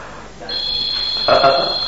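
An alarm clock beeps during a live demonstration, giving a steady, high-pitched electronic tone that starts after a brief quiet lead-in and holds loud and unbroken to the end.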